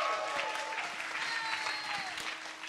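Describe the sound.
A church audience applauds to welcome a speaker with steady, full clapping that continues throughout and eases slightly at the end.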